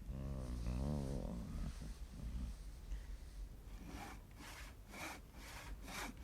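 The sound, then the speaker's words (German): A hand saw cuts through a wooden post supporting a structure raised on four posts, giving a few rhythmic rasping strokes in the second half after a low, murky stretch. “Er schlängelt sich wie ein Aal zum 1. Pfosten, setzt die Säge an.”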